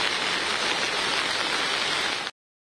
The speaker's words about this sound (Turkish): Güneydoğu Anadolu bölgesinde etkili olan sağanak yağış hayatı olumsuz etkiledi.